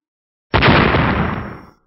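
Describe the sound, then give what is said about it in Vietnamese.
A single explosion sound effect: a sudden loud blast hits at once, then a rumbling, noisy roar fades away over a little more than a second into silence. “Một tiếng nổ rung trời vang lên, quyền ảnh màu vàng trong nháy mắt nổ tung”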